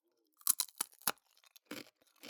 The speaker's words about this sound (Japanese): タコスチップスのパリパリの音、